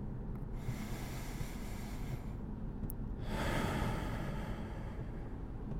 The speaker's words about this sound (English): Let's take a couple deep breaths right now.